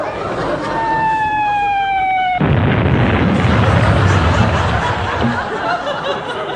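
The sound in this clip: A loud blast of naval gunfire from the home fleet, set off at a ship-naming and race start: a slowly falling whistling tone gives way to a sudden heavy boom, followed by sustained rumbling noise.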